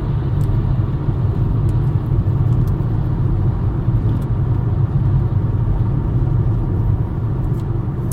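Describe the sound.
Engine rumble heard from inside a car, a steady, dense low drone that stays constant throughout, with faint scattered clicks above it and no voices.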